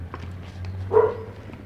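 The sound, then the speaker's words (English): A single short dog bark rises briefly over a steady low hum, with nothing else distinct around it. “Oh, here is another dog. Here is another dog.”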